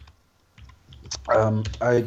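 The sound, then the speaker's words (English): Typing on a computer keyboard, heard as faint, scattered key clicks in an irregular patter, before a person begins talking over it. “I'm just going to look it up, actually. So apologies for the typing”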